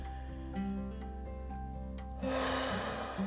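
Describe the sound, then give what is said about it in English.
A single deep, airy breath during a guided relaxation breathing exercise, swelling in the second half over soft sustained music, with no talking. “just take 3 deep breaths”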